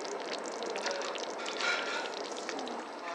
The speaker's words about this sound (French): C'est quoi qui bouillonne comme ça? C'est une bolognaise pour les lasagnes.